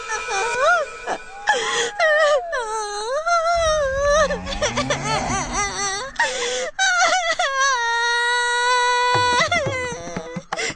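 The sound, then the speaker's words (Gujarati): A girl who has fallen into a dry well cries loudly in long, wavering wails that rise and fall in pitch. Her sobs come in repeated, sustained bursts, broken by short catching breaths. “બહુ મોટે મોટેથી રડી રહી છે”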